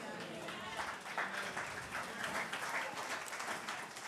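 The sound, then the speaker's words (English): A church audience claps along, faint but continuous, with the hand claps blending into a soft crowd murmur and voices beneath. “I'm trying to get your hands together, get a bit more of a clap going.”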